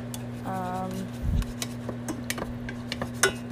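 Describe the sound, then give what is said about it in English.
A spatula stirs diced spam in a small pot, giving light metallic clinks, taps and scrapes at an irregular pace over a steady low hum, with a brief voice near the start. “Using this weird looking spatula to cook up the spam.”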